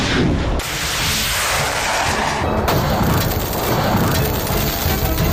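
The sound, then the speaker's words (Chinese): An HQ-16 surface-to-air missile fires live at targets, giving a loud, continuous, rushing roar with a dense, rumbling body. It carries on without pause, with abrupt shifts in texture partway through. “按照实弹射击设定的战术背景，此时红旗16导弹正在全速清除来袭目标”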